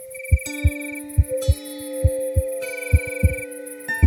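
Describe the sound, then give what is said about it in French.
A heartbeat: steady, soft, low paired thumps repeating in an even rhythm over a sustained tonal drone. “Alors, le petit tambour ferme les yeux et entend battre son cœur.”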